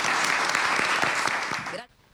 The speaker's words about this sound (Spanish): Cerramos aplaudiendo, ¿les parece?